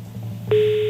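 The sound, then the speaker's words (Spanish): A telephone ringing tone on a radio call-in line begins halfway through as one steady mid-pitched tone, held over a low background hum. “Vamos a María José, a ver si María José nos descuelga el teléfono y conseguimos 250 euros. Madre mía. María José, primer tono, atención.”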